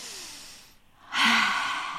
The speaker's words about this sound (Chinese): 哦，来深呼吸。 是是， 嗯，深呼吸。